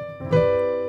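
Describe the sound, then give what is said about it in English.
A C major seventh chord with an added ninth sounds as one bright, sustained harmony that rings on steadily and fades only slightly. “This is a C major seventh chord with what's called a chord tension, a ninth.”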